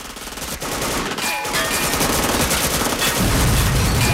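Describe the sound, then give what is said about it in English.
Machine gun fire from several robbers shooting at a police car: loud, dense, continuous rapid bursts that overlap into an unbroken barrage for the whole clip. “All four robbers then fire machine guns at the car.”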